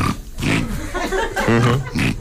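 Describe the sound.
A human voice imitates a wild boar's grunt, producing a rapid series of rough, low, nasal snorts and grunts in uneven bursts. It is fairly loud and there is no other sound.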